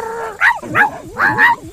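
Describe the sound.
A dog barking, a few short, high yelping barks in quick succession, loud and alone.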